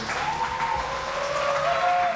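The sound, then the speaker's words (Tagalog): Audience applause greets a commuter-campaign convener at an advocacy event, a continuous even clatter of many hands that holds steady throughout. “Commuter, muli bigyan natin ng masigrabo palakpakan si Nanoy Rafael, convener ng Para Commuters”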